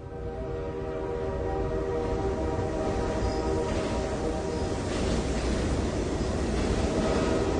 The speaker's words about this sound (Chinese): 楚璇就和各位一起来介绍一趟列车，带我们一同驶向青海的杂想号。